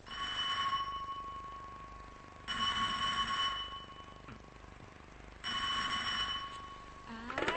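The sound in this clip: A telephone rings three times in even, bright electronic bursts, each about a second long and separated by short pauses, heard alone without talk.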